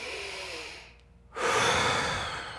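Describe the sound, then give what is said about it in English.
A quick, forceful breath taken partway through a breath-retention hold in a breathing exercise: a short quiet lull, then a loud, rushing, airy intake that stays strong to the end. “If you get to a place where you really have to take a breath, you can do a quick breath like this.”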